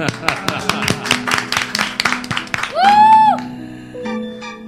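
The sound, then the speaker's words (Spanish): Applause in short, sharp claps comes in a fast, irregular patter for a couple of seconds, followed by a swelling, sustained tone that rises and then fades. “Por favor, aplausos.”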